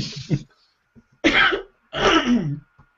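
A coughing fit: a few harsh, throaty coughs in separate bursts with short quiet gaps between them, the later bursts longer and heavier.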